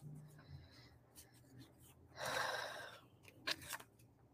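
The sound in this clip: Affirmation cards being shuffled make a short, papery rustling burst in the middle, followed by a couple of brief soft clicks, with faint low talk at the start.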